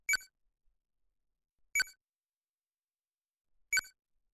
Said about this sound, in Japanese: 今後のためにお部屋の内装をスキャンしていました。